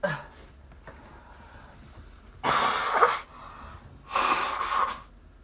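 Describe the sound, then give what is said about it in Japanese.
A person with a nose irritated by barbecue charcoal smoke blows their nose in two loud, rough, hissing honks, separated by quieter breathing. “ちょっとごめんなさい、鼻かむ、鼻かませてほら”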